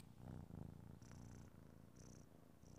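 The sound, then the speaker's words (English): Kitten purring: a soft, low, rhythmic rumble of steady pulses, faint and continuous throughout. “Do you hear that? It's the sound of a kitten purr.”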